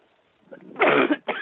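A woman coughing after something went down the wrong way: two harsh, loud bursts, the first longer, preceded by a faint catch in the throat.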